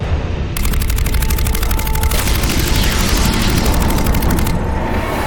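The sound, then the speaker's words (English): Rapid, sustained gunfire from a space video game as ships shoot up a command ship. Loud, densely repeated shots run as an unbroken barrage for about four seconds over a heavy low rumble, then thin out near the end. “Alright, I guess we shot up the command ship.”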